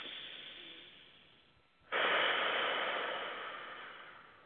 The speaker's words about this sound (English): relax and take a few deep breaths in through the nose, out through the mouth